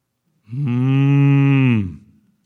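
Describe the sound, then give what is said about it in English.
A single loud ox-like lowing: one long, steady, deep moo lasting over a second, rich and droning, that fades away at the end with no voices around it. “But Samuel said, verse 14, "What then is that bleating of the sheep in my ears and the lowing of the oxen which I hear?"”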